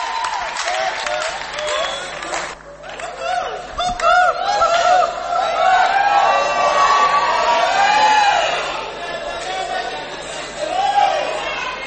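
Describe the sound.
Concert crowd cheering and applauding to welcome a performer on stage: sustained clapping mixed with shouts, whoops and chatter, loud and continuous, with people talking through it.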